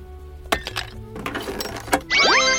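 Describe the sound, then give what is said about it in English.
Clinks and knocks as a loose floor tile is pried up in an office horror video game. A few sharp hits and scraping rattles come first, then a bright rising electronic chime. “Maybe she hid the key under this loose tile. The flooring? That is definitely coming out of your paycheck, and you're destroying company property. Correction, I'm improving it.”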